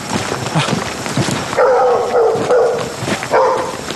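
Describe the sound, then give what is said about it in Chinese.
Dog barking in a run of several short, harsh barks that come in close succession and are fairly loud, with no talk. “有狗叫肯定有人”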